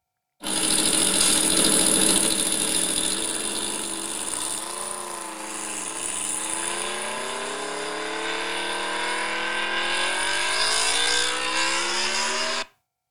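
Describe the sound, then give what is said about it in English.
Modern Aprilia RSV4 motorcycle engine roaring in a sustained, high-revving run, its pitch dipping briefly midway and then climbing steadily until it cuts off, loud and without voices. “It's an Aprilia RSV4, as I'm sure everyone is yelling at their screens right now.”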